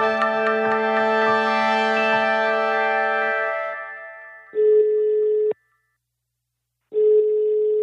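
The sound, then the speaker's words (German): Ringback tone of a telephone call being placed to an expert: two steady, one-second tones separated by a silent gap, preceded by a sustained, slowly fading ringing tone. “Aber dann lass uns doch einfach direkt mal eine Expertin anrufen”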